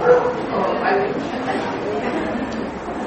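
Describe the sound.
A dog barks outside, a few yips and barks running under steady talk throughout.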